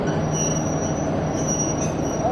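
A train passing through a rail yard, left over from the Timișoara train: continuous loud rumbling with a steady high squeal of wheels on rails, no voices.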